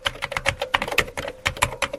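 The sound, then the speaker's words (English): Typing on a computer keyboard: quick, irregular runs of crisp key clicks, many presses in close succession with no pauses for talk. “Let me type this up real quick.”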